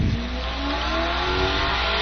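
A truck engine revving at a firefighting competition, a loud, continuous roar held at high revs throughout with no talk over it.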